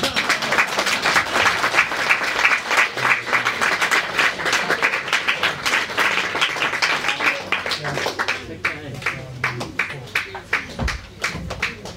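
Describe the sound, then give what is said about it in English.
An audience applauds steadily for storytellers, a dense, even patter of many hands clapping that holds for the whole stretch and thins slightly toward the end. “another round of applause for all our storytellers”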